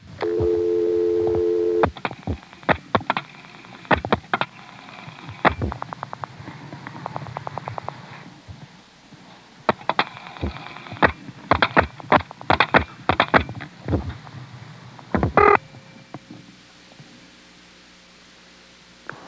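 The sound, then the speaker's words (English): A register sender dials digits over a resonant wire telephone trunk on a 1973 line. A steady tone opens, then many quick clicks and short bursts come in uneven clusters over a constant hiss. “You can hear the register sender dialing 60, and you can tell that it's a nice resonant wire trunk to Dale City.”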